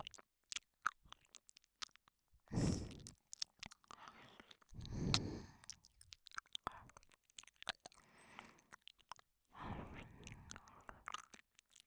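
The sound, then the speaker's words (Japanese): Close-up lips nibbling a soft ear: quiet, wet smacks and clicks scattered throughout, with a few longer soft rustling bursts, all faint. “まずは、柔らかそうな耳。唇で噛んでやろう。”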